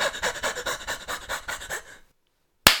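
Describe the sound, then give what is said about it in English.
A person pants deliberately to sound out of breath: many quick, rhythmic breaths in steady succession. The panting stops abruptly into silence, then one short loud burst follows. “Wait, I need to be a little out of breath.”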